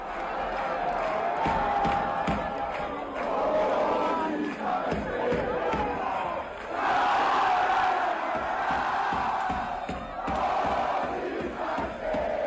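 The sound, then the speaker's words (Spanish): A football crowd and players chant together in loud, sustained unison. The singing pulses rhythmically, with brief dips between phrases and a broad roar of voices throughout. “Cantaba la gente y cantaban los jugadores. Escuchad.”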